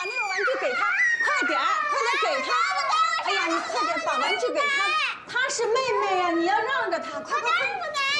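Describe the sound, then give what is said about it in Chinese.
Two young girls squabbling and crying. Their high-pitched voices wail and shout over one another in a loud, wavering, continuous tangle that barely pauses. “孩子的吵闹声让白寒宁十分的不耐烦。”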